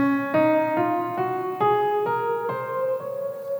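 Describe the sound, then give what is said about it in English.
A major scale played on a tonal instrument rises note by note in a steady, evenly spaced ascent of clear, sustained pitches, each note ringing into the next. “There's not actually 12 notes in a major scale. There's actually only 7, and they sound like this.”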